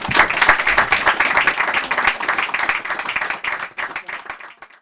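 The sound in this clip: Audience applause and clapping welcoming an author. The dense, lively patter of many hands tapers off toward the end.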